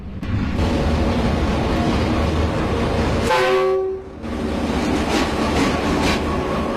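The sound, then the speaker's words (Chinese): A passenger train rolls through a century-old mountain station at the top of a switchback railway near the Great Wall, its loud steady rumble broken midway by one long horn blast before the rumble resumes. “青龙桥站客车快1596压道行走。”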